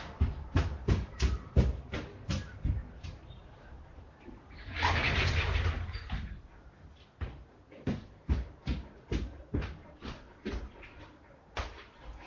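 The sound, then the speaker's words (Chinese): A window is pulled shut with a brief rushing scrape lasting about a second. A voice speaks steadily before and after it. “稍等一下，我把这个窗户关上。”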